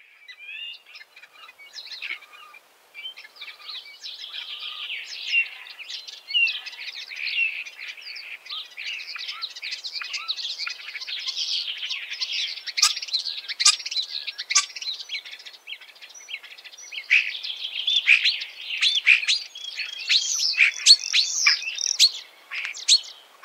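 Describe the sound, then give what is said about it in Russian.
Starling song, a busy, continuous stream of varied chirps, whistles and clicks at moderate volume, heard alone with no other sounds. “Скворец.”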